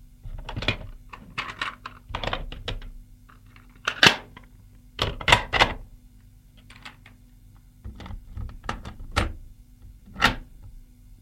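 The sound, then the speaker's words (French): A tape recorder is set down on the armrest of an armchair and readied, giving a string of sharp mechanical clicks and clunks in irregular clusters with quiet gaps between them. “Je vois que vous avez amené le magnétophone. C'est très bien. Nous allons pouvoir commencer. Nicolas pose l'appareil sur le rebord du fauteuil et le prépare.”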